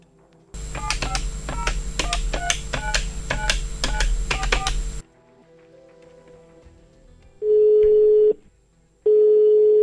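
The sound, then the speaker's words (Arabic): Touch-tone keypad dialling a telephone call: a rapid run of many short beeping key tones over a low hum. After a pause, two long, steady ringing tones follow. “رح نتصل بيرزقو ونعرف منه أكثر.”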